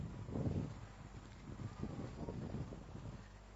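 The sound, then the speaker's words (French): Wind buffets a microphone outdoors during a French sermon, a steady low rumbling roar with gusty swells that runs throughout. “Donc, attendez, excusez-moi parce qu'il y a un peu de vent.”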